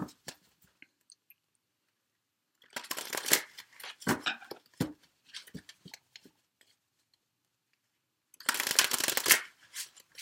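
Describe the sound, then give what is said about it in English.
Tarot cards from a Witch's Tarot deck being shuffled by hand: soft papery riffles and slides in irregular bursts, with a long flurry in the middle and another dense burst near the end, separated by quiet pauses. “So let me go ahead and get the cards from the Witch's Tarot.”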